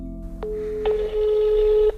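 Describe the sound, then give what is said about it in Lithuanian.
A telephone is dialed to place a call: a short sharp click, then a steady electronic tone lasting about a second over a low background hum. “Pirmiausia, skambinu Pranutei, apie kurią laidą kūriau praėjusiais metais.”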